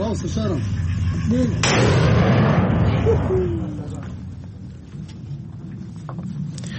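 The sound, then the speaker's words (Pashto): Artillery fire on the outskirts of Mosul during fighting: a sharp blast followed by heavy rolling rumble that swells and slowly fades, with voices in the background. “د موسل ښار په څنډو کې د توپخانې ډزې اورېدل کېږي”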